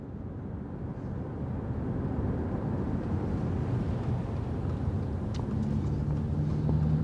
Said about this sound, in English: I'm driving around West Philadelphia with Mike Africa Jr.